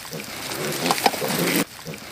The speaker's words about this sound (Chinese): 你看我们这猪吃的啊，你看。